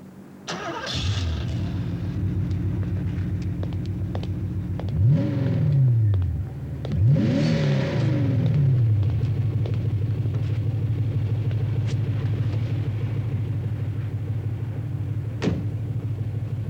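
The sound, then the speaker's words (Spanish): A car engine starts with a sharp burst and settles into a low, steady rumble, then revs up twice in rising sweeps as the car pulls away, the motor droning on evenly afterward with no talking. “Iremos en mi coche. Suba.”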